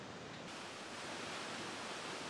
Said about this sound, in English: this is one of the most beautiful waterfalls we've ever seen.